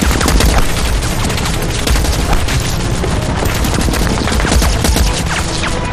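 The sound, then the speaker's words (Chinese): Heavy anti-aircraft machine gun fired level by South Korean troops in a wartime battle: a loud, unbroken stream of rapid shots for the whole stretch, dense bursts overlapping into a continuous roaring rattle with no pause. “南朝鲜军竟然用高射机枪平射。”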